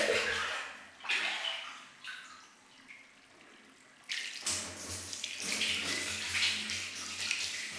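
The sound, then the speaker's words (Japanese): Hot water is scooped into a bucket and poured out for rinsing, heard as splashing, gushing bursts that ease off briefly midway and then return louder and more sustained. “まずは軽く流していきますね。桶にお湯を汲んで、”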